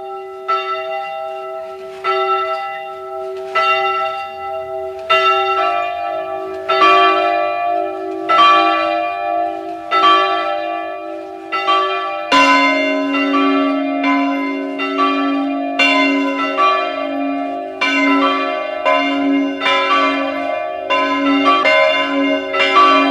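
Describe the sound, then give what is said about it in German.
Parish church bells in Zweng, in the Lungau region of Salzburg, ring out at noon: several bells peal together in a dense, continuous run of strikes with bright, lingering overtones, loud and steady throughout with no voices. “Es ist 12 Uhr. Sie hören die Glocken der Pfarrkirche von Zweng im Salzburger Lungau.”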